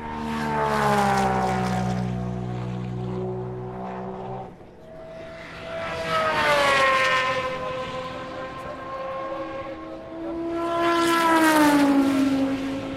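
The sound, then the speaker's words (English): Loud engine roar of an Aston Martin race car passing during a motor race, with other race cars following. The droning, harmonic engine note swells and sweeps in pitch as each car goes by. “That was one of the Aston Martins, followed by the Pescarolo Chassis AIM, run by Orica.”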